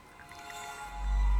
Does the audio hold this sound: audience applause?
no